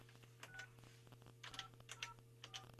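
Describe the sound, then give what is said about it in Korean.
Telephone keypad tones as a number is dialed to call a listener's brother: many short, faint beeps in quick clusters over a low, steady hum. “제가 그럼 동생한테 전화를 지금 한번 해볼게요.”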